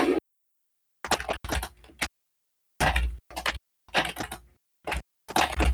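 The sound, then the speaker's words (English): Furious typing on a computer keyboard comes in several loud bursts of rapid clacking keystrokes, separated by brief silent pauses. “furiously types”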